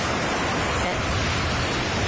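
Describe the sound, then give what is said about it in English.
Sea ambience: a steady, dense wash of surf-like noise with no distinct events, holding at an even level throughout. “what we do need is a bit of ambiance. So let's transport ourselves to the sea.”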